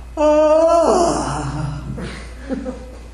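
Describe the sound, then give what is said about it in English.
A voice imitates a loud, drawn-out yawn, like a student yawning aloud during a teaching: a strong voiced moan that slides down in pitch into a breathy exhale, followed by a few soft vocal sounds. “And yawning loudly. You know, some people just yawn. Some people go,”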